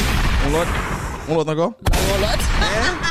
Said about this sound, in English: Drop more bombs.